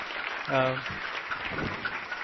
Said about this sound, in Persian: خیلی محکم تشویقشون کنی، خیلی محکم تشویقشون کنی.